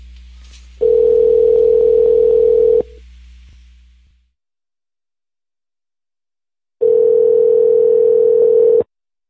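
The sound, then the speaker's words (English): Telephone dial tone on a line used to call a motel: two loud, steady, unbroken stretches of a single low buzzing tone, each about two seconds long, separated by silence, with a faint low hum fading out before the gap. “But I think it's about time to call another Motel 6. That was good, though. I'm glad that, it could dial in still.”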